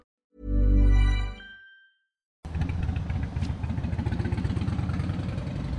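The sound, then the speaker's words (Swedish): Harley-Davidson motorcycle engine rumbling steadily with a low, pulsing beat. It starts after a brief sustained tone and a short silence. “Var du tvungen att köra med din... Ja, det var en Harley Davidson.”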